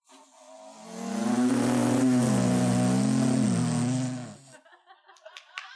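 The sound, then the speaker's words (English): A voice imitates a car engine by buzzing the lips while a soda can is crushed. A sustained buzzing tone dips and rises in pitch for about three seconds, then stops, followed by a few sharp crinkling clicks. “But for a car, if you crush a soda can and kind of vibrate your lips,”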